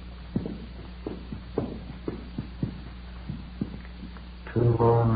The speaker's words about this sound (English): We got a pass key from the room clerk on duty and started up the stairs.